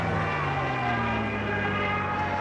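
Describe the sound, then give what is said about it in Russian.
Engine roar of a shot-down German aircraft trailing black smoke as it falls. A loud, continuous drone whose pitch slowly sinks throughout. “Подбитый самолет неприятеля падает.”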